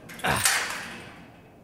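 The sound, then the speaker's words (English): An old rusty gate creaks open with a single short, grating metallic scrape that fades into a trailing tail. It is fairly quiet and heard alone, with no voices. “Now, let's get this old rusty gate opened up here.”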